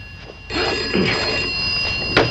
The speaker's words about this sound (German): Tarling erhält in seiner Wohnung einen Anruf.